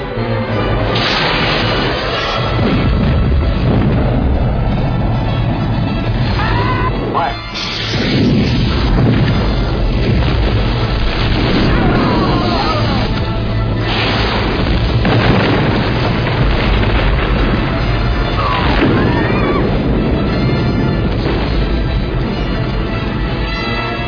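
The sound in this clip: Heavy weapons fire and explosions during a ship boarding battle: dense, continuous booming and crashing that fills the whole stretch, loud and unbroken apart from a brief dip partway through.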